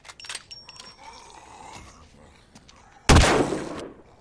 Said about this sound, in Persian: داری تیراتو حروم میکنی.